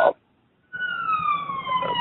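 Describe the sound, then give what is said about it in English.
A siren wails in the background of a New York location, a steady, loud, high tone that slowly falls in pitch, starting after a brief silence. “I hear a siren or something there. That's just my New York location is picking up in the background.”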